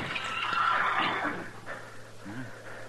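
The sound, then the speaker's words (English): A horse whinnies, the saddled animal tied at a corner with a bedroll strapped on behind; a short, faint harmonic neigh rises and falls against a steady low hum, with no voices. “There's a horse tied there at the corner. Yeah. All saddled up. Bedroll tied on behind.”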